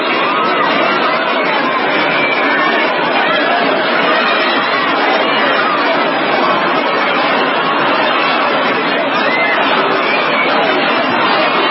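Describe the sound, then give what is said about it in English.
Dense crowd babble fills a street at the Notting Hill Carnival in London, many voices chattering and calling at once in a steady, unbroken wash of noise with no pause throughout. “Welcome to London, and more specifically the Notting Hill Carnival, long celebrated as the best diversity has to offer.”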